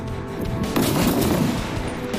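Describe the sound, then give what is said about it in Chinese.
Sniper rifle fire during a timed assembly-and-shooting drill against targets at 600 and 800 metres: a loud, sharp report followed by a long, rolling rumble that slowly fades. “那他们分别要对600米和800米目标进行射击。”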